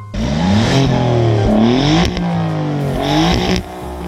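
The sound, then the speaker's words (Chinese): A Quadrifoglio four-door sports sedan revs loudly in race mode, its engine kept above 3500 rpm. The engine note surges up and drops back in several sharp sweeps with a throaty, rasping roar. “race 模式下，发动机的转速会被控制在一个更高的区域，通常是在三千五百转以上，而且这个时候油门的响应非常的积极，可以说是一点就有，点多少有多少。那么这个时候你耳朵的感受啊，已经非常接近一辆法拉利了。”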